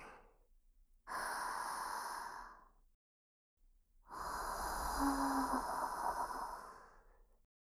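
A person breathing out slowly during a guided relaxation: two long, airy breaths, each lasting a couple of seconds, separated by a short silence.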